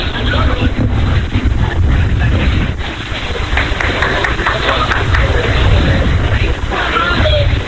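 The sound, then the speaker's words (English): Strong wind at a baseball game buffets the microphone, a loud, continuous low roar and rumble that holds steady throughout. “Strong wind.”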